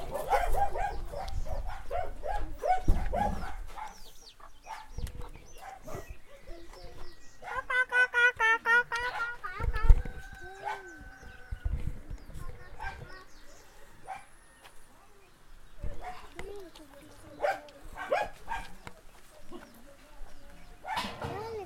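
Dogs barking and yipping in scattered short bursts, mixed with whimpers and a stretch of high, rapid whining tones, loud moments separated by quieter gaps.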